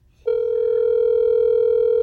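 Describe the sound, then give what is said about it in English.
A telephone tone sounds as a call is placed: after a brief quiet moment, a single steady electronic tone starts abruptly and holds at an unchanging pitch. “Okay, now let's go ahead and give John Schull a call.”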